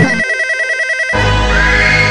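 A telephone rings for a radio call-in, a rapid pulsing warble of many quick beats lasting about a second, then it gives way abruptly to a louder, sustained, fuller sound.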